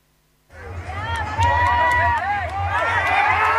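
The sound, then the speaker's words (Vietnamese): Crowd of football fans celebrating a victory in the streets of Hanoi: a loud babble of shouting and cheering voices bursts in after half a second and stays dense and sustained to the end. “Hàng vạn cổ động viên đã kéo ra các tuyến phố mừng chiến thắng, biến đêm thủ đô thành một lễ hội đường phố ngập tràn cảm xúc trong đêm qua”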